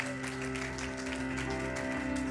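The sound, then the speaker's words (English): Church audience clapping as an offering of praise to the Lord, a dense steady patter of many hands held under sustained, even tones throughout, fairly faint and without a break. “Please give the Lord a clap offering.”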